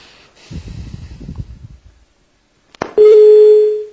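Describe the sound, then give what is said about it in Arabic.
Telephone tone after a dropped call: a stretch of low rumbling noise fades to silence, then a sharp click is followed by a loud, steady, low-pitched tone held for under a second. “يبدو أن الاتصال انقطع.”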